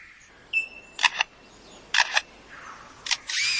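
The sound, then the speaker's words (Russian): A lyrebird mimics a camera shutter: three pairs of sharp mechanical clicks spaced evenly apart, with thin, high bird whistles in the gaps between them. “самое смешное видео, которое я видел, это как он имитирует звук затвора фотокамеры, на которой его снимают.”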